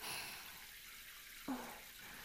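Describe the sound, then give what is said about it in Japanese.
Water rinsing hair behind the ears during a hair wash: a soft, continuous hiss of flowing water with one brief splash partway through, faint and steady throughout. “今度はこっち、耳の後ろもしっかり流して、あ、ちゃんと耳に入らないようにしてますからね。”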